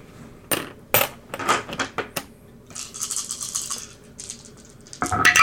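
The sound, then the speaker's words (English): Dice thrown and rolling during a tabletop role-playing game: a few sharp clattering hits, then a longer run of light rattling, and another loud burst of clatter at the end, with no talk. “He's throwing dice at me now.”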